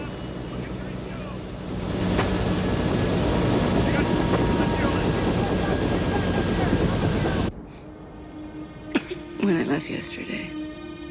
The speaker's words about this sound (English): As they do so, the downdraft spews up snow that lies peacefully on the ground. As the blades slow down, Rob and his co-pilot leave the helicopter.